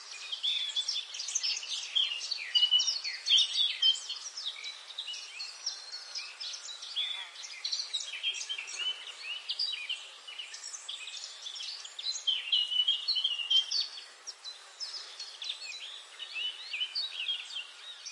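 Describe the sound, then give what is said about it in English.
Birds chirp on a sunny morning, with many quick, high chirps overlapping in a continuous chorus that swells and eases at moderate loudness and has no voices. “One sunny morning, as birds chirped their cheerful tunes,”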